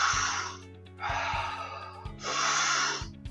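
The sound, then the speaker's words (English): Deep breathing: three long, breathy rushes of air, each lasting most of a second, with quieter gaps between them, over a low steady tone. “I want you to breathe deeply, such as, and it doesn't matter. There's no technique on this, but just the following.”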